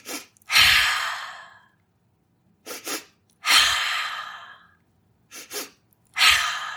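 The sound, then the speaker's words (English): Breathing exercise done alone: two quick sniffing inhales through the nose with no exhale between, then one long, slowly fading exhale through the mouth. The cycle repeats about three times, with short pauses of silence between cycles. “It consists of two quick inhales through the nose with no exhale in between, and then one long exhale through the mouth. So it sounds like this.”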